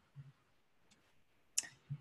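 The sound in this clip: Computer mouse clicks on a save button in website-editing software. A few faint, brief clicks, one sharp and crisp, are spread among soft low thumps in an otherwise quiet stretch.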